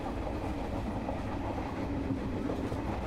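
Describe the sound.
A train carriage runs along the rails with a steady, low rumble that stays even and fairly soft throughout.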